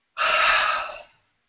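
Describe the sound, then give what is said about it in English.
A person takes one deep, sharp breath in. It is a single loud, breathy rush of air lasting about a second and heard alone, with no talking. “the second thing that they do is they take a deep breath. They go,”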